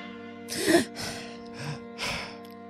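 A person takes deep breaths before reading aloud: a few soft, airy breathing bursts, the first the strongest, over a steady low tonal hum.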